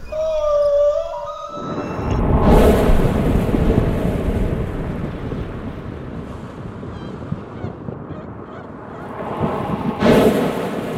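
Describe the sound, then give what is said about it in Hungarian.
Plastic waste rustles to mimic the sea, a swelling, wave-like rush of crackling noise. The noise builds, subsides slowly and surges again near the end, after a brief harmonic tone at the start. “Amit hallottál, az nem tenger volt, hanem műanyag szemét.”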